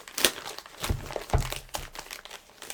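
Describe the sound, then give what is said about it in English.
Tape being peeled and pulled off an object, a few crinkly, tearing bursts with short crackles between them, moderately loud with no talking. “Then I think this comes off like so. It's like a bunch of tape on it.”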